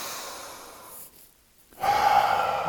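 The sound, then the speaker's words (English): Deep breathing during a guided breathing exercise: soft, airy breath noise, then a near-silent pause, then a stronger, fuller breath that carries on to the end. “So let's inhale it in.”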